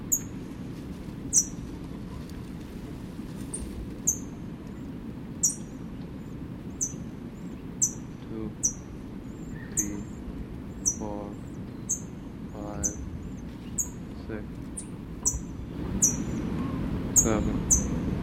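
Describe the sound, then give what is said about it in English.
Faint calls from a chick in a nest: a few soft, brief calls among repeated sharp, high chirps over a low, steady background hiss. “7, 8, faint response from chick in nest.”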